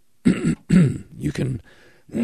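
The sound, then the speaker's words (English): A person clears their throat and coughs in a few rough, raspy bursts separated by short pauses, including one sharper cough in the middle and a fainter rasp near the end. “you can cough and clear your throat first.”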